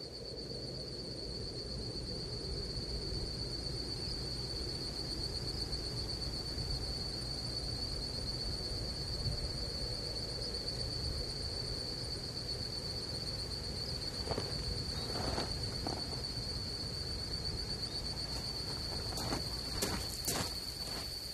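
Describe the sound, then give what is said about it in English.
A steady, high-pitched insect chorus at sunset, a constant shrill trilling that never pauses. A few brief, faint clicks stand out near the end. “One of the most remarkable things for me at sunset was the insect chorus, insects that I'd never heard before.”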